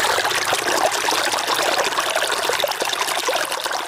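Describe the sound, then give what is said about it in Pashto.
Water flowing steadily while farmland is irrigated, a continuous trickling and rushing wash that stays even and fairly loud throughout, with no voices. “اوس مهال د خپل زمکی په خړوبولو بوخت دی”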